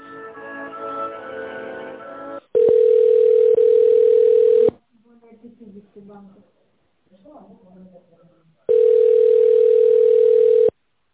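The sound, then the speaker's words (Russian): A steady, loud telephone line tone plays while a call is transferred. It holds in two long stretches, separated by quieter, uneven sounds, with other sound before the first stretch. “Переключу вас на договорной отдел, секунду.”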